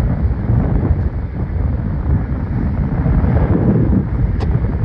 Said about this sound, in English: But it's pretty windy up top here today.